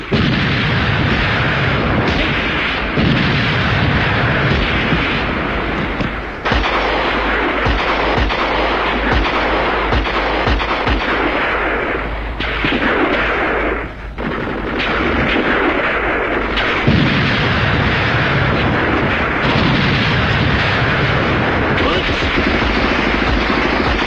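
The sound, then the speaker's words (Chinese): Artillery fire and explosions roar through a battle scene, a dense, continuous barrage of heavy booms and blasts that stays loud from start to finish with barely a pause. “炮声震地，杀声冲天”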